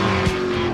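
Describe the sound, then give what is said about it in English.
A black and gold 1978-79 Lotus race car fires up on track at a ribbon-cutting ceremony, giving a loud, steady engine drone with strong buzzing tones and a slight bump partway through the brief burst. “that was Mario Andretti's 78-79 black and gold Lotus firing up on the track at Circuit of the Americas.”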